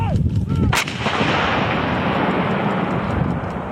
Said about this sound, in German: Das sind Schüsse oder Explosionen von irgendwelchen,